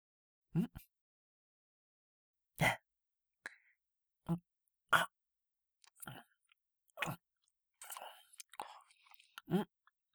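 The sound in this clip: Cat chewing food: several irregular, separate bursts of soft crunching and biting with quiet pauses between them, faint overall, with no talking.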